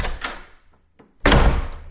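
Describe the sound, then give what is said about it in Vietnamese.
A house door slams shut with one loud, abrupt, heavy bang, preceded by a few fainter thumps. “Tiếng đóng cửa rầm một cái.”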